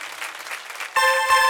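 A church audience claps during a worship service, a dense, continuous patter of applause. After about a second it is joined by a sustained harmonic musical tone.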